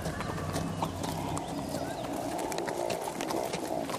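Hooves clop steadily as horses are ridden through fog, with an unbroken run of dull knocks over a constant noisy rustle.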